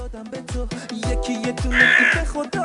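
A crow cawing sound effect: a rapid, continuous run of harsh, raspy caws, loud and steady in rhythm, with no talk over it.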